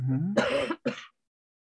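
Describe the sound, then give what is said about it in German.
A 74-year-old man with a bad cough gives two harsh, rough coughs. A brief throaty sound leads into the first, louder burst, and a shorter second cough follows after a short gap, then silence. “Sie haben starke Hüsten. Ja, ich habe Ja. sehr, sehr schlimmen Husten.”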